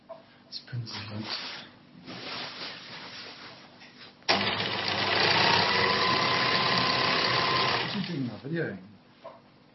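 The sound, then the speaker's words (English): A sewing machine stitches a large piece of green material meant for a green-screen backdrop, running in one steady, busy whir for about four seconds. A person talks before and after the stitching. “He's sewing a green screen. A big piece of green material that he's going to use as a backdrop”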